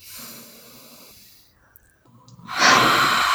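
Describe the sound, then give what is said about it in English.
A deep breath comes during a tapping relaxation exercise: a quieter airy stretch fades out, then a loud, rushing breathy inhale surges in and holds for the last second. “So let's just do one more little round of positive. So deep breath.”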